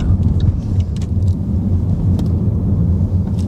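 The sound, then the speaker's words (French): A car slowing under regenerative braking with steering-wheel paddles gives a steady, low road rumble and dull hum. Faint higher ticks scatter over it, and no voices are heard. “Ce qui est bien, c'est que j'ai les palettes, donc je peux régénérer. J'ai presque l'impression de rétrograder. Et là, je vais freiner.”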